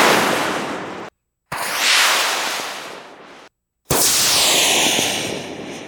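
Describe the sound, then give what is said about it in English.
Three separate rocket fireworks, each recorded with a mono shotgun microphone aimed at the rocket the whole time. Each is a loud, sustained, hissing roar that slowly fades, and short silences separate them. “rockets that are from the Rabbit Ears audio library. One of my favorite libraries is Rabbit Ears Rockets.”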